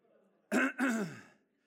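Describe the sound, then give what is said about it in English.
A man clears his throat in two quick, raspy bursts, the second one longer, loud and alone, followed by quiet. “Here's how I know my dad's getting ready to say something. He clears his throat.”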